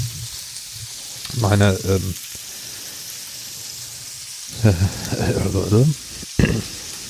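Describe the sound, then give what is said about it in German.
Mettenden sausages sizzling in a frying pan give a steady, crackling hiss that runs throughout, while a person talks in short bursts over the frying. “die Pfanne mit Mettenden brutschelt jetzt hier. Das sieht schon mal sehr gut aus. Ich kann ein bisschen runter, dann ist es auch nicht so laut.”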